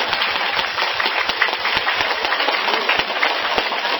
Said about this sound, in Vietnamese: cho quý vị local một tràng pháo tay.